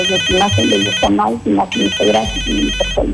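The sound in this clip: A telephone rings for an incoming call to a radio show, its electronic ringtone pulsing steadily while a voice talks over it.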